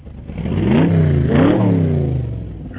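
A Dodge Viper sports car engine revving: two loud rising-and-falling surges of the engine note, with the second pull peaking higher before the sound eases off at the end.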